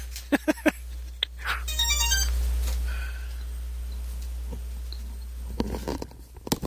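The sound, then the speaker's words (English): A mobile phone ringtone going off during a recording, a faint electronic melody in a few short pulses over a steady low hum. “what the hell is that? That's my phone. I'm sorry. I didn't put it on silent before we recorded.”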